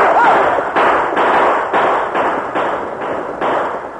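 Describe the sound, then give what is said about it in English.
Gunfire from riders shooting at a gang in a Western range fight: many sharp, heavy bangs in a rapid, fairly even rhythm, loud throughout. “Then the point riders and the Indian rode with blazing guns to face the Corey gang.”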